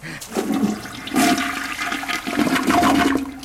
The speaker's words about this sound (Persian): این سینک ظرفشویی اینم کل دستشوییه که بله ما چاه داریم اینجا میافتیم توی چاه.